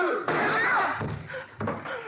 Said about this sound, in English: She's shot herself.